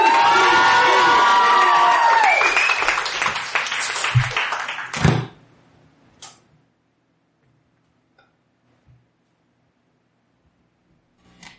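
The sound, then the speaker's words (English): Audience at a rapper's live show cheers, whoops and shouts loudly for about five seconds, then the noise cuts off sharply, leaving near silence with a few faint scattered sounds. “Make some noise for TPK, ladies and gentlemen. You can be louder than that. Louder!”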